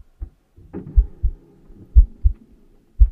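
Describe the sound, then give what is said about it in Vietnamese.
A heartbeat pounding in the chest: low, heavy thumps in loose pairs recur about once a second over a faint steady hum. “A Nùng còn mơ hồ nghe thấy cả nhịp tim của mình đập thình thịch ở trong lồng ngực.”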